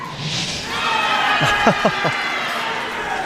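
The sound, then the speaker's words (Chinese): Crowd cheering at a curling match: a broad murmur of spectators rises into a few sharp shouts near the middle, then settles back into a steady hubbub. “这声欢呼啊是刚才德罗普金又一次秀一下自己的肱二头肌”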